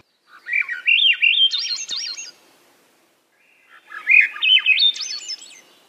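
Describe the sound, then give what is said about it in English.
Swainson's thrush song: two clear, flute-like phrases, each a rapid run of notes spiraling upward in pitch, with a short silent pause between them and no other sounds. “Swainson's thrush.”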